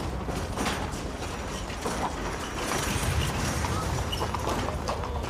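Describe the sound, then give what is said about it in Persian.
Clip-clop of horse hooves as a horse-drawn cart arrives at a caravanserai, a busy run of many hoof strikes over a steady, broad rumble. “نوچه‌های بهادر وارد کاروان سرا میشن. یک گاری هم آوردن.”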